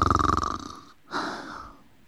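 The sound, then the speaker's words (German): A single snore: a buzzy, rattling pulsed intake of breath, then a brief pause and a softer, airy exhale, fairly faint and alone. “In der Sprechblase schnarcht es.”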